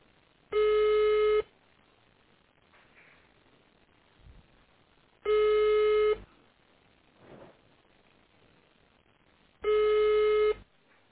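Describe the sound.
Phone line tones while a call is transferred to a waiting queue: three long beeps, evenly spaced several seconds apart, with faint line hiss between them. The sound is thin and band-limited.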